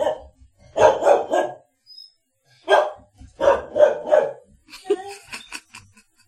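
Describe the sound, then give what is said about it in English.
Ranger the dog barks an alert in several bursts of sharp, loud barks separated by short pauses, with a few higher, thinner yelps at the end. “Ranger is barking an alert and including her in the communication.”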